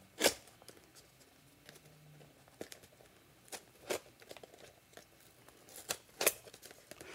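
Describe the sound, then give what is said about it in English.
Someone pries open a square cardboard phone box like the Pixel Fold box, making quiet, sporadic scrapes, creaks and crinkles. Several sharper snaps and tearing sounds stand out along the way. “So I must say that the box is very difficult to pry open, and I don't think I'm even doing it right.”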